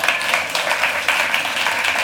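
A church audience clapping for the praise team in a brief, fairly loud burst of steady applause.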